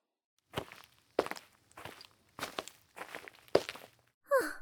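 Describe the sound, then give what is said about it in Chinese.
Footsteps of someone walking a long way on a treasure hunt: six distinct, evenly spaced steps, each a short scuffing thud, followed by a brief voiced sound at the end. “走了这么长时间的路，什么都没发现，真是累死我了。”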